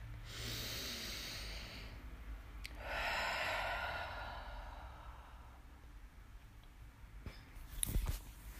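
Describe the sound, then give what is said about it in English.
A deep breath taken slowly, heard as long, soft rushes of air as it is drawn in and released. The breathing is faint and unhurried. “Take a deep breath.”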